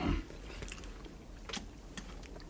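Soft chewing and biting as real jam is eaten in a radio drama: faint, moist mouth sounds with a few crunchy bites, low in level with no talking.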